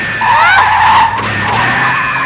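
Tires screech as a car skids while being driven. High, sweeping squeals rise over a rumbling engine for about a second, then the motor keeps droning on alone.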